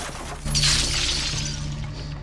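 House windows being smashed: one loud crash that bursts into a bright, hissing spray of shattering glass, lingering and slowly fading over about two seconds.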